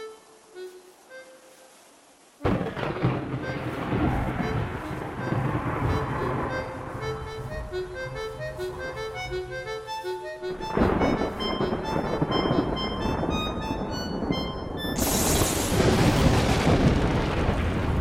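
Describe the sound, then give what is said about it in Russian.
Thunder rolls over steady rain as lightning strikes a nearby tree during a storm. Loud, rumbling surges build and break through the downpour, and a sharp crash comes near the end. “Молния ударила дерево, стоящее рядом.”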